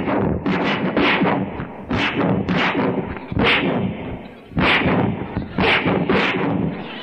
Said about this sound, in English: just pull out that gun and start shooting